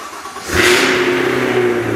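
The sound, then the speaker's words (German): A Cadillac Escalade V's 6.2-litre V8 engine revs sharply, surging loud after a brief quiet moment, then holds a deep, steady roar with a rumbling low hum until the end. “Das ist 6,2 Liter V8.”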